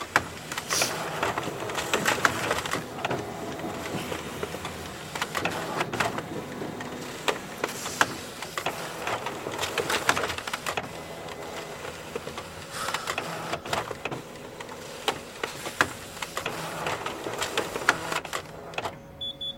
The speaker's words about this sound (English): so I'm gonna have to make some copies. Whatever. Do it. Okay. It's a slow copier because it's a Xerox machine in a gym.